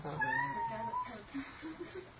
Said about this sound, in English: No, I think it's a cat out there.